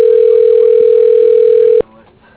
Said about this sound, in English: Dialing.